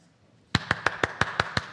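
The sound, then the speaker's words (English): Eight crisp hand claps follow a brief near-silence, struck at a steady, even pace and fairly loud, each clap short and bright, with no voices. “Yeah, clap. Right? So with our hands, we can affirm one another. We can clap.”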